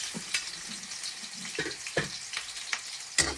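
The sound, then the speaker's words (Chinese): Scallion and ginger being stir-fried in hot oil in a wok: a steady crackling sizzle broken by a few irregular clinks and scrapes of stirring. “热锅倒油。放入葱姜煸炒”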